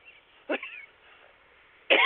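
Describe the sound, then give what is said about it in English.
A person coughing: two short, dry coughs separated by a pause, the second louder, with no talk around them. “Excuse me. Yes, sometimes we do cough on air.”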